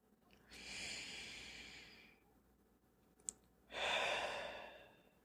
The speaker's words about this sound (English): Let's stop and take a deep breath.